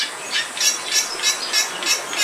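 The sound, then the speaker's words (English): Bali myna song in an archive recording: many bright, high-pitched notes repeated at an even, quick pace, each with a breathy, noisy edge and a thin whistled tone. “This example of a Bali Mina is from Cornell University's archive. That song is a big reason why these birds are critically endangered.”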